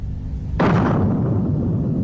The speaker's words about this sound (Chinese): 伴随着雷鸣般的响声，大漠上空同时出现两个太阳，蘑菇云随之拔地而起，空投爆炸试验成功。